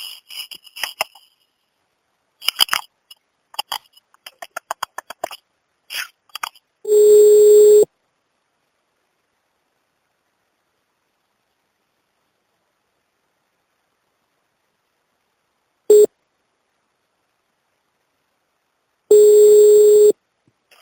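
Telephone line tones sound while a third caller is patched into a call. A burst of short, uneven chirps comes first, then three steady electronic tones separated by silence. The middle tone is brief and the other two are longer.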